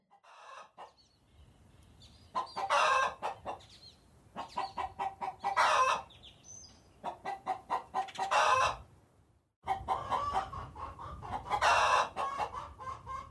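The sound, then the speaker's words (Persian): A hen clucks as it settles into its nest to lay eggs. The rhythmic clucks come in several bursts, each building to louder, harsher cackling peaks, with short pauses between. “بعدش میره توی لونه، میخوابه قد قد میکنه، برای من تخم میکنه.”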